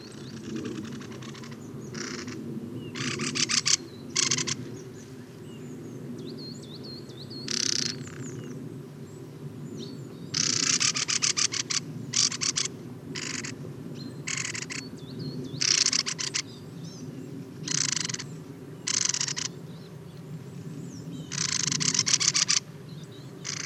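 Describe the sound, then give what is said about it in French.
Young coal tits call in autumn, giving many short, high, thin bursts that repeat unevenly over a steady low rumble. “des jeunes mésanges noirs.”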